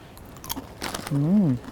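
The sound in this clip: Crunchy biting and chewing as someone eats dry or crispy baked snacks rescued from a supermarket's discards, a few crisp bites followed by a voice speaking.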